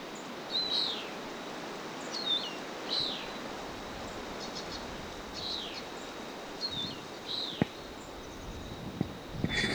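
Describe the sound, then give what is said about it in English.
A feral bird calls outdoors, giving a series of short, high chirps spaced a second or two apart over a steady rustling background hiss. “Stop. A bird.”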